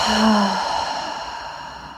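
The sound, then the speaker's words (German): A slow, deep breath through the nose during a guided breathing exercise: a soft, airy rush that swells slightly early on and then gradually fades, with no talking. “Atme tief durch die Nase in diesen Bereich ein und aus.”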